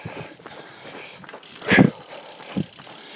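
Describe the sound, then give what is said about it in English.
A bicycle wheel spun backwards, heard as one brief loud whirring burst near the middle and a shorter, fainter burst just after, over a low steady background. “Make that make that wheel sing. Spin it backwards.”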